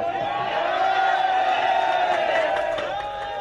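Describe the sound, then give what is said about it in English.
A crowd cheers in a room as the Thai government announces that a missing soccer team has been found in caves, a sustained wash of shouting, elated voices with no break. “You can see the cheers there, even if you don't understand exactly what they're saying. You can see the cheers, the elation there in the room.”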